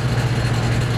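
Oil and gas facility compressors droning inside a sound barrier, a loud steady engine-like rumble with a strong low hum and no breaks.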